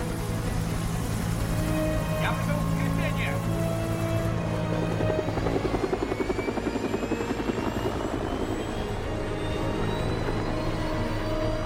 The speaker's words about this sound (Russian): Они побежали к вертолету, чтобы полететь по указанным координатам. Вертолет взлетел в воздух.